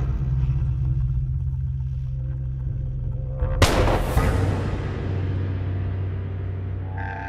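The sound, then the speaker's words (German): A single gunshot in a pistol duel on a mountain plateau: one sharp, loud crack midway that decays into a fading rumble, set against a steady low hum before and after. “Die Kugel schrammte mein Knie.”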